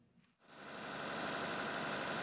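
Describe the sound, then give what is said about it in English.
A diesel generator runs during a power outage in Khartoum. After a brief quiet moment, its low, steady engine hum swells and then holds at an even, vibrating drone. “Ahmed Yaqub checks on his generator several times a day to make sure it's running properly.”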